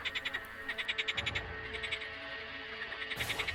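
Croaking of a large black frog, as big as an adult's hand: a quick, rhythmic series of many throaty pulses, steady and fairly faint, pausing briefly before resuming.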